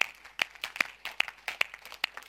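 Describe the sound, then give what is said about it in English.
Members of a church audience clap their hands, producing many sharp, separate claps in a loose, uneven rhythm. The claps are fairly quiet, with short gaps between them rather than a continuous roar. “Now clap your hands to the Lord.”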